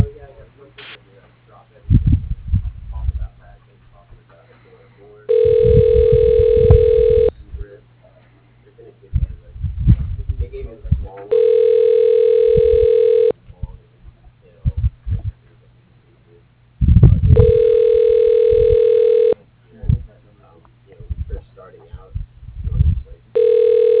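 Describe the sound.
A phone rings back while a call is being transferred: three long, steady electronic ring tones, each about two seconds, separated by gaps in which people talk faintly.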